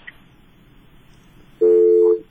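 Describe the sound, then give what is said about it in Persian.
A telephone line tone heard when a listener's call drops on a call-in line: near silence, then one loud, steady mid-pitched tone lasting about half a second before it cuts off. “فکر میکنم تماس ما قطع شد.”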